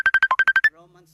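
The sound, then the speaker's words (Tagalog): A phone ringtone from an incoming call plays as eight quick, evenly spaced electronic beeps, then fades into a faint low tail. “may tumatawag ko, hindi ko masagot eh.”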